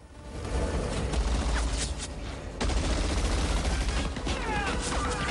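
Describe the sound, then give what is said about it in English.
Guns firing during a fight between soldiers and a sniper, a dense, unbroken volley of crackling shots. A brief lull midway gives way to equally heavy fire. “Two soldiers are shot off the top of some salvage. Sniper located. Two guns fire from the shadows.”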